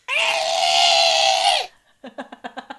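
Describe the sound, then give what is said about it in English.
An adult voice imitates a toddler's willful screech, not from pain or need, as a loud, sustained high-pitched shriek lasting over a second that bends down in pitch at its end. After a brief pause comes a quick run of short voiced bursts. “he was just doing these screams where it's not like a pain scream or I need something scream. It's just literally like I want my way. It's like an asserting my will scream. He'll just be like,”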